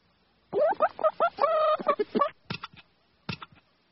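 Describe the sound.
A hen clucks after laying an egg: a rapid burst of many loud, nasal clucks and squawks, then a few sharper, spaced-out clucks, heard alone.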